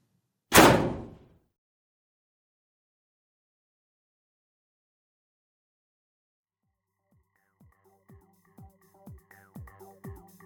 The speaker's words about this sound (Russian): Смотрю на номер и стучусь в железную дверь.